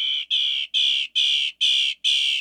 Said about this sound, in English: Some birds have a lot to say, but few surpass the northern mockingbird.